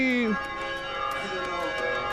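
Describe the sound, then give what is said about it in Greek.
Church bells ring on a Saturday, their sustained metallic tones overlapping in a steady wash with faint repeated strikes. A voice is heard briefly at the start. “Γιατί χτυπάνε καμπάνες?”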